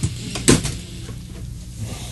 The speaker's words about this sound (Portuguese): Fechou-me a porta na cara, hein?